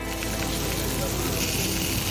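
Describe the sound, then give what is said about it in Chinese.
Rice sausage with lamb lung, Sichuan peppercorns and hot chilies stir-fries in hot oil in a wok, giving a dense, steady sizzle and crackle that runs without pause. “原味米肠子搭配羊肺子，用花椒尖椒改变其温柔脾性，火辣爆炒，一盘麻辣米肠”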